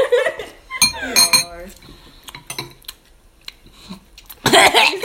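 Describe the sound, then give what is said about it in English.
A spoon clinks against a bowl while someone eats soup. A few sharp, bright metallic clinks come between quieter stretches, with a louder clattering burst at the end. “I'm eating soup. Me too.”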